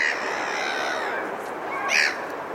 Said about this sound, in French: une composition au son bizarre, faite de cris de mouettes et de leur interaction avec la voûte du Pont Neuf et la masse d'eau de la Garonne